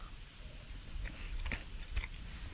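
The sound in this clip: Crisp bites and chewing on a chocolate mooncake, a few soft cracks and crunches over quiet mouth sounds, faint and close, with no talk over them.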